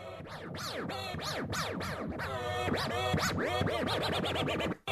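A DJ scratching a vinyl record with rapid back-and-forth swipes, making many swooping squeals that rise and fall over a repeated snippet of music. It stays steady and fairly loud, then cuts out briefly near the end.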